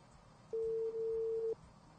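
A telephone call rings unanswered, heard as a single steady, low-pitched ringback tone lasting about a second over faint line hiss.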